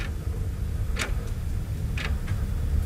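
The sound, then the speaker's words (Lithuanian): Faint ticking of a clock in a farmhouse: two soft tick-tock pairs about a second apart, barely rising above a steady low rumble, with no voices. “Net laikrodis kaip girdis.”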